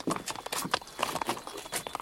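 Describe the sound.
Horses' hooves clip-clop as a horse dealer shows several horses for choosing, with many irregular, sharp knocks in a quick uneven rhythm and no talk.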